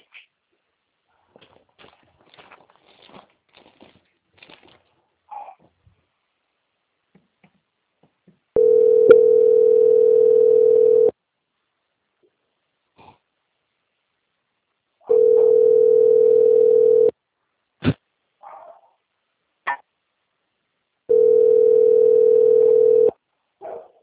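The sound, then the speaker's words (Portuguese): A telephone line plays a steady mid-pitched tone while a call is being transferred. It sounds in three long, even bursts of about two seconds each, separated by quiet pauses with a few faint clicks. “Aguardo só mais um pouquinho que eu vou transferir a ligação, tá bom?”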